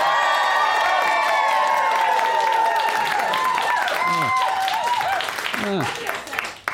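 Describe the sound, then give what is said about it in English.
A live stage-show audience cheering, whooping and applauding, with loud sustained crowd noise and high shouted whoops that thin out and fade toward the end. “I'm speaking to you on the 23rd of March at a Wooden Overcoats live show. And if you don't believe me, here's a live audience.”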